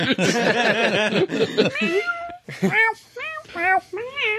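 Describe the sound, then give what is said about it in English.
A cat meows in a series of short, wavering rising-and-falling cries that follow a stretch of talk. “cat. Sounds like Simon's cat.”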